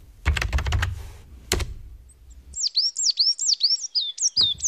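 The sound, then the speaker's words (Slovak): Tit birdsong from a sound collector's recording: a few clattering knocks first, then a quick run of high, sharp chirping notes repeated rhythmically, each note sweeping downward. “Počuješ to, činčirin? To je síkorka. Keď takto spieva, o 2 týždne príde jar.”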